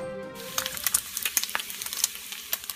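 Bacon sizzling in a pan: a faint, steady frying hiss dotted with many small, sharp pops and crackles at an uneven pace.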